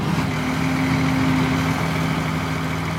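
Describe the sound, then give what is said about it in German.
Steady engine drone from a huge forklift lifting two containers off a transporter at a recycling yard, a continuous low rumble with an even hum that stays level throughout. “Mit einem riesigen Gabelstapler werden auf dem Recyclinghof die beiden Container von Kiesches Transporter gehoben.”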